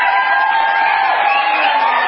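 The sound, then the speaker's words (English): An audience cheers and whoops in a steady, loud roar of many voices that holds an even level without pause from start to finish. “I love that applause. That applause is a beautiful thing.”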